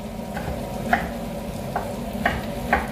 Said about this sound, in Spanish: Vamos adentro con la berenjena